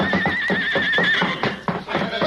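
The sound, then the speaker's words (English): A horse gives a loud, wavering, high-pitched whinny, followed by busy thudding hoofbeats and commotion. “Look out, that horse!”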